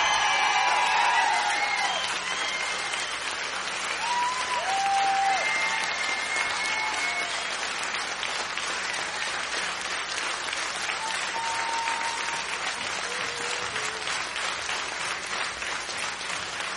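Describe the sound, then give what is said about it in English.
Crowd applauding and cheering: dense, steady clapping holds at a loud, even level throughout, with a few whoops and whistles rising above it early on. “Well, there you have it. Listen to that crowd go.”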